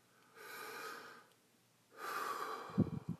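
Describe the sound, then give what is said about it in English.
A slow, deep breath: a soft, airy inhale lasting about a second, a short pause, then a longer and slightly louder exhale. It is quiet overall, with no talking. “Take a breath.”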